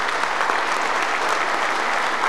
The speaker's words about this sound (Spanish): Por eso un aplauso muy fuerte a todos esos compañeros